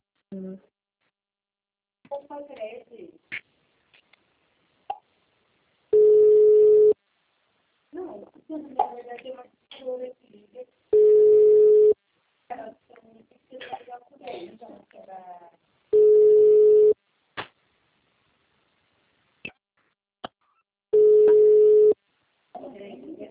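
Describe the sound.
Steady electronic telephone tones sound while someone tries to call, with four identical beeps of about a second each spaced at regular intervals. People talk in the gaps between the tones.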